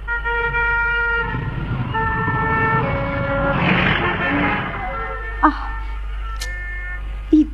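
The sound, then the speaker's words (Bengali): Traffic at a busy, complex road crossing with many cars: a steady, dense roar of vehicles with long, sustained horn tones sounding over it, and a couple of short, sharp knocks near the end. “এত গাড়ি যাওয়া যাচ্ছে না তো। তারা এখনো রাস্তাটার এপারে, মস্ত জটিল ক্রসিং এর অগুন্তি গাড়ি মানুষ আর শব্দের”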